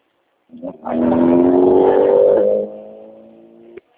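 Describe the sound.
A car engine hums during a phone call, its tone climbing gradually over about two seconds as it accelerates, then settling into a quieter steady drone.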